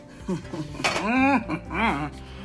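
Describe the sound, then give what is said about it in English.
A bowl is grabbed in a kitchen, giving ringing clinks and dish clatter in a few quick touches over a steady low hum. “I'm grabbing my bowl.”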